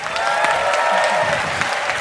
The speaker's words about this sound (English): Give us a warm welcome to Ainissa Ramirez.